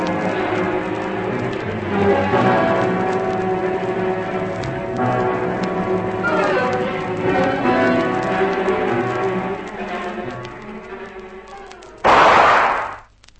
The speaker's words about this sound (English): Uh-oh, someone's trigger-happy. Yes, and not far enough away for comfort. Faster, Lizzie, or they'll be firing at us instead of shadows.